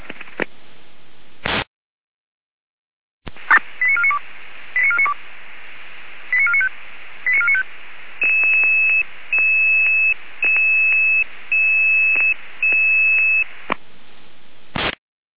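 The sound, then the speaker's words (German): Fire brigade radio alarm call tones: after a short burst of hiss, several groups of rapid electronic beeps sound over a noisy radio channel. A run of longer, evenly spaced steady tones follows, and the channel ends with static. “Alarmruf.”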